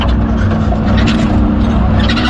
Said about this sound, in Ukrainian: І ось машиною доїжджаємо до певної точки.